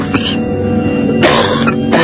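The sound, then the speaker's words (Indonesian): A man coughs very close by: two harsh, abrupt bursts stand out over a continuous tonal background. “suara batuk seorang pria dan itu berada sangat dekat denganku.”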